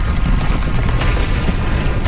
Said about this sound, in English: The ground is exploding.